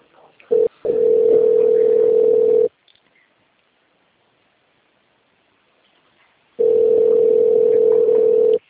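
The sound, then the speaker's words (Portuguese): A telephone rings with nobody answering: two long, steady ringback tones, each about two seconds, separated by a long silent gap, with a brief short tone just before the first. “Né, tá possível, não tem ninguém, chama, não tá atendendo.”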